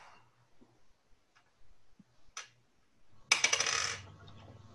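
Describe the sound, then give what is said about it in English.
An eight-sided die is rolled during a Call of Cthulhu tabletop role-playing game. A few faint taps lead into a quick, bright rattling clatter that dies away within a second, with no talk. “I'd like you to roll an eight-sided dice.”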